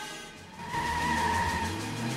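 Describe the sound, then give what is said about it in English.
A car lurches forward with a sudden surge of engine noise and a steady, tonal tire-squeal whine that holds for well over a second. “The brown car lurches forward, knocking the rear fender off the car parked in front and weaving out into the oncoming traffic.”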